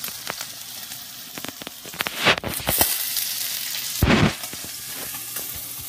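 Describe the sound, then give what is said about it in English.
Catfish frying in a pan, a steady hiss of sizzling oil dotted with sharp crackles and pops, swelling into a few louder bursts of spitting. “So basically at this point, sort of like I'm waiting for the catfish to finish cooking here.”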